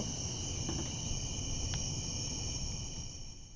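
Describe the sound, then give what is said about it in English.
Crickets chirp outdoors in a continuous, even high-pitched trill, a steady insect chorus over a faint low rumble that fades slightly at the very end. “crickets and frogs in the background.”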